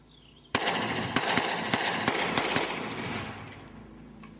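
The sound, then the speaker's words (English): A 9mm pistol fires several sharp shots at a blue couch under a bridge. The shots come in an irregular, fairly quick series of loud cracks, and each blast leaves a lingering, rumbling decay that slowly fades after the last one. “In the video, he's under a bridge and firing at a blue couch.”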